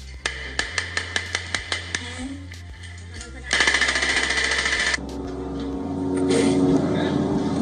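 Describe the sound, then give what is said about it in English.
Gunfire from multiple weapons in an attack on soldiers in Beit Lahia: a quick, regular series of sharp shots, then a dense, loud burst of rapid fire, all over a steady low drone. “The video shows five men in green military wear walking near a building before multiple weapons appear to be fired at them.”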